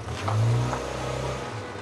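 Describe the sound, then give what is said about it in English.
A car pulls away from a crowded school pickup with a low engine hum that swells briefly, then settles into a steady rumble. “He watches the car pull away.”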